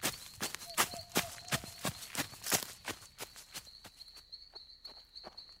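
Hurried footsteps of several people running, a quick, uneven patter of many sharp thuds that grows a little softer toward the end, over a steady high insect-like whine.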